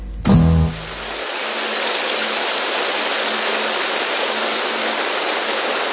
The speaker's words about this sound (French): La pluie s'est mise à tomber ici au studio Boucan.